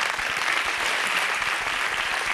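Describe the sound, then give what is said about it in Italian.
Studio audience applause, a brief burst of thick, steady clapping that stays loud and even from start to finish. “Applauso alla grande azienda.”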